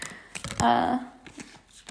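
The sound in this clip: Tarot cards being shuffled: a quick run of soft papery flicks and taps, irregular and fairly quiet, with a denser flurry near the middle.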